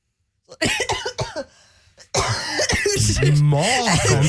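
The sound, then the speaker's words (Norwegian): A person coughs and clears the throat, with something stuck in it. A few harsh bursts mix with strained, voiced sounds. “Ja, unnskyld, jeg fikk ordentlig rusk i halsen. Ja, det skulle vært Daniel som hosta her også.”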